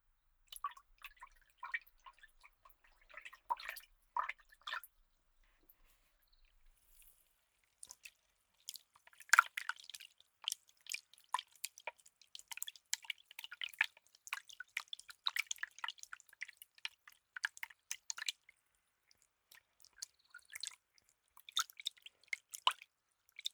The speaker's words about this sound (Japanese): 髪を炭酸水で洗い流しますね。まずお湯と中性重炭酸を混ぜて、